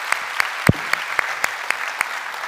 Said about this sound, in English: So if you're here in person, would you put your hands together and let's welcome in our online family.